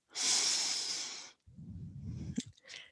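Deep breathing during a yoga-style exercise routine: one long, loud, airy exhale lasting over a second, then softer, rougher breaths with a brief click near the end.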